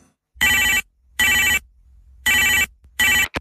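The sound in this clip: A telephone rings in four bright electronic bursts at a steady, even rhythm with near silence between them; the last burst is cut short.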